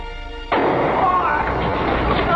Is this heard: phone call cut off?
no